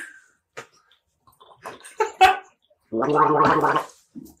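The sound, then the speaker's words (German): People drink a small, refreshing Berliner Luft drink: a few short sips and clicks are followed by a longer, louder bubbling gurgle, then one brief final sound. “wir trinken gerade einen erfrischenden kleinen Berliner Lüftchen”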